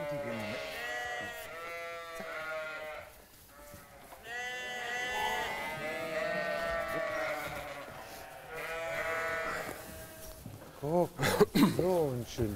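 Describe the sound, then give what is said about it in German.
Ram lambs bleating in a sheep herd as they are separated from the rest before going to summer pasture. Many loud, wavering bleats overlap throughout, with sharper, higher calls near the end. “Die Bocklämmer müssen als erstes von der restlichen Herde getrennt werden.”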